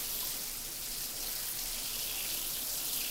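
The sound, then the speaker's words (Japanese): Hot water soaking into hair during a hair wash, a soft, even, continuous hiss of flowing water with no voices. “たっぷりと髪の毛にお湯を染み込ませて。”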